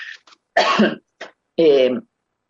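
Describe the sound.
Someone with an itchy throat clears it in two strong, rough bursts, the second more voiced and guttural, with a couple of brief faint throat sounds before and between them.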